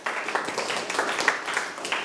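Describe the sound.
Applause from a class clapping for a classmate, a steady even patter of many hands at moderate level lasting about two seconds, with no speech over it.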